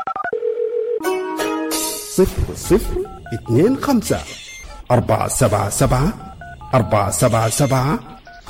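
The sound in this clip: Telephone keypad dialing tones: many short, bright beeps interspersed with talk, opening with a few steadier tones.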